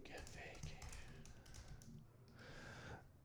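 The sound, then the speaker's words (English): Rapid typing on a computer keyboard: a steady run of quick, clicky key taps with short pauses, continuing throughout at moderate loudness. “oh man, I'm not typing it in right. Hold on here.”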